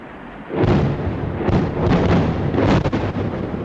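NATO jets bomb Libya with heavy rumbling blasts. After a brief quieter lead-in, a deep, loud boom rolls in and keeps rumbling, with a few more thuds folded into the roar.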